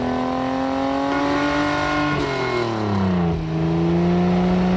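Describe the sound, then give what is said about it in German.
Race car engine roaring as it speeds along a street, a continuous loud whine whose pitch dips midway and then climbs again. “Kalli will ein Kalli-Rennauto sein. Und schwupps ist Kalli ein Kalli-Rennauto und saust die Straße entlang.”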